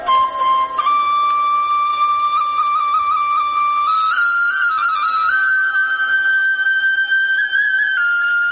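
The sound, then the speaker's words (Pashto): Flute played by a shepherd leaning against a large rock while grazing his flock: a loud, continuous, breathy melodic tone that holds steady, then steps upward in pitch a few times without pause. “خو د دغه رمې شپونکي بیا دلته یوې لویې تیږې ته ډډه لګولې او شپېلۍ ږغوي.”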